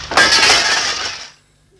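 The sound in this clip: Glass breaking: one sharp, loud shattering burst, followed by bright tinkling fragments that ring on and then fade out quickly into silence.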